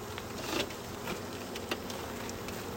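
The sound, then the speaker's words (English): Soft airy puffs from a beekeeper's smoker beside a colony of Russian bees: a few brief breathy bursts rise over a steady, dense hum of buzzing bees. “You can hear my smoker.”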